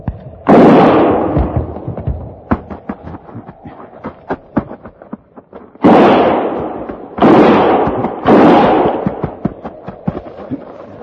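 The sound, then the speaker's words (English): Gunshots firing in a frontier western drama: four loud, sharp blasts with long rumbling tails, spaced apart among many lighter cracks and pops. “Start firing.”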